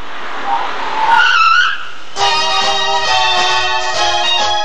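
Tires skid as a taxi pulls up: a loud squeal wavers and rises, then gives way to a steady, droning, tonal engine sound that carries on to the end.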